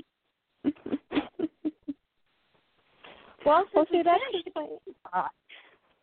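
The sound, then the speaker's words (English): A pet bird makes a quick series of short kissing smacks, followed by a person talking. “now you're kissing to try and butter me up. I see you. Silly little bird.”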